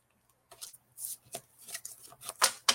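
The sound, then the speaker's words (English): Tarot cards being shaken and shuffled in a few short, quiet bursts of dry papery rustling and riffling, with brief pauses between them. “How's that? It's called shaking the cards up.”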